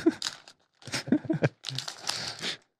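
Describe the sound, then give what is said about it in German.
Crinkling paper and tearing wrap as a package holding a fountain pen is unwrapped, coming in three rustling bursts separated by short pauses. “Lass ihn mal auspacken.”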